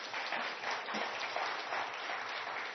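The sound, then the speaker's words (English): Applause from an audience giving an ovation as a speaker reaches the podium: dense, steady clapping that stays at an even moderate level throughout, with no voices. “That's pretty bad when you just get an ovation for getting to the podium.”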